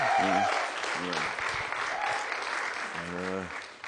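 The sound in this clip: Applause welcomes a guest pastor at a church live link-up: steady clapping runs throughout, while a voice speaks briefly over it a few times.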